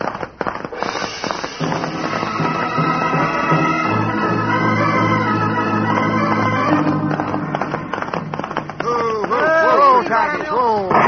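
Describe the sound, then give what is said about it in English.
Gunshots from a sheriff's gun beyond a ridge: sharp cracking reports come in a rapid, scattered series, loud and crackling, while voices talk over them. “Yeah, it's a sheriff. He's seen his shadow and he's shooting at it, hoping to collect the reward.”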